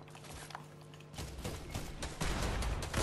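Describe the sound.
Rapid gunfire in a video game, many dense cracking shots that run without a break and grow louder and busier toward the end.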